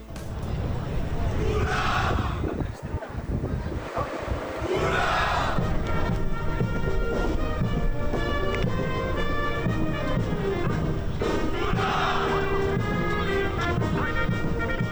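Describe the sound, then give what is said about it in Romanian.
Fellow cadets loudly cheer and shout for a classmate's marriage proposal at the arrival ceremony after a sail-training voyage. A dense, continuous crowd roar of many voices and whoops runs throughout. “O să auziți ovațiile colegilor fericitului cadet pe fundalul interviurilor.”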